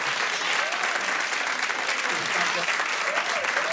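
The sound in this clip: Audience applause greeting a man's wife and children as they are welcomed onto a stage: brisk, steady clapping throughout, with voices cheering over it.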